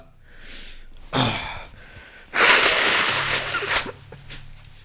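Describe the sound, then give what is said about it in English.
A person blowing their nose: a short breathy puff, then a longer, loud, rasping blast of air lasting over a second with a noisy, hissing texture, followed by a faint low hum. “that's blowing my nose right there.”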